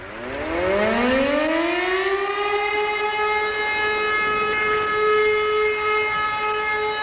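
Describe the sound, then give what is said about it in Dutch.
The monthly civil defence air raid siren test sounds at noon on the first Monday of the month. A loud wail winds up in pitch over the first couple of seconds, then holds a steady, sustained tone with no other sound. “dat maandelijkse luchtalarm op de eerste maandag van de maand om 12:00 stipt.”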